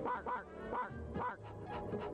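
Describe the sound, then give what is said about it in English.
A robot dog named Airbud barks in a quick series of short, yappy bursts, bright and harmonic, with uneven gaps between them and no voices alongside. “this is my robot dog, Airbud.”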